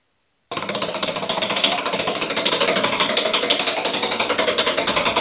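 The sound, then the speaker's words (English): Prize wheel given a hard spin by hand: after a brief silence, a rapid, even stream of ratcheting clicks starts abruptly and runs continuously at a steady rate to the end. “So, Dave, let's give this wheel a spin.”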